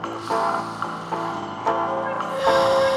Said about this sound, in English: Allow yourself to take a deep breath in